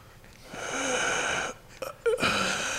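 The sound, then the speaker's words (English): Wheezing breath: a drawn-out, strained whistling tone on the inhale, then a short break and a few sharp, ragged gasping bursts before the wheeze resumes. “Wait, there's a way to wheeze in Spanish?”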